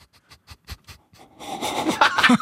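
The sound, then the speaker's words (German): A person breathing heavily: a quick run of short, evenly spaced panting breaths, then a louder, rougher stretch of breathy noise at the end. “atme doch mal schön.”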